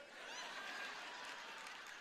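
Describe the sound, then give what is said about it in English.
Faint, steady audience applause at a 40th-anniversary celebration, a continuous wash of clapping that holds at an even level for the full two seconds with no voices standing out. “You can clap all you want to.”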